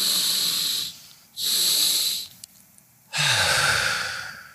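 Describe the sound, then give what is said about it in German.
Deep breathing in through the nose and out into the belly: two long, airy inhales separated by a short pause, then a fuller, louder exhale with a low rumbling edge. No talking. “Tief einatmen durch die Nase in den Bauch. Nochmals. Und ausatmen.”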